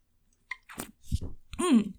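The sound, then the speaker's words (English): Sipping from a cold can of Diet Pepsi: a few short, wet clicks and slurps, then a louder gulp-like sound near the end, all alone without talk. “I had a cold can of Diet Pepsi in my fridge. I am drinking it right now. Take a little sip.”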